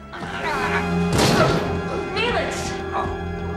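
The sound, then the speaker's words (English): A man is kicked off a ladder and falls with a heavy crashing thud midway through, one loud impact over a sustained musical score, followed by brief strained vocal sounds. “Sklar kicks Neelix off the ladder.”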